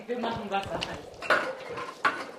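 Metal clatter as a pot of boiling water is taken off the stove, a few knocks and clinks of cookware over a faint hiss, fairly quiet.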